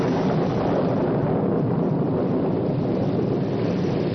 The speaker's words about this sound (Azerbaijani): Subtropik bölgənin adəti üzrə göy gürültüsü və sanki heç vaxt kəsməyəcək yağışı, palçıq və gölməçələr